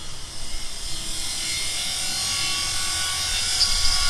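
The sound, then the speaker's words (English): A welding torch roars as it cuts through a padlock and heavy chain on a silo door, a steady, rushing hiss that holds fairly even for about four seconds. “The door to the silo is locked with a padlock and heavy chain. Fortunately, I don't go anywhere without my special reporter's welding torch. It comes in handy more than you'd think.”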